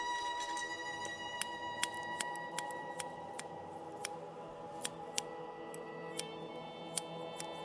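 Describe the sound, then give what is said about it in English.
Scissors snipping as locks of hair are cut off, with many crisp, faint, evenly spaced clicks that keep a steady rhythm throughout, standing alone over a low background hiss. “The latter woman in black began to cut locks of Jen's hair off.”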